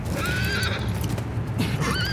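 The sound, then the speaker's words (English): A horse neighs in two shrill whinnying bursts with wavering pitch, loud over a steady low rumble. “Oh, horsey.”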